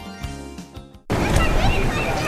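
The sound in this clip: Swimming-pool water splashes on a summer day: after a short stretch of voice, a dense, loud wash of sloshing and splattering starts abruptly and stays steady to the end.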